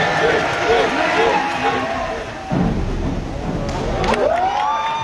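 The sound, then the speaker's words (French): A small but noisy crowd of spectators cheering and shouting at a diving competition pool. The loud, continuous din of raised voices and whoops dips briefly midway, then swells again. “Et du plaisir, il en a donné aussi aux peu nombreux mais bruyants spectateurs.”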